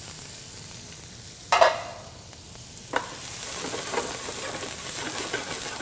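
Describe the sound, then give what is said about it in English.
Onion sautéing in a pan over medium-high heat as the base for a black bean and roasted red pepper frittata: a continuous hissing sizzle, punctuated by two sharp stirring knocks, that grows louder and fuller toward the end. “So I want to saute my onion. Get this going first.”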